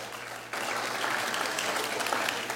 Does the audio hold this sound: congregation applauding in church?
yes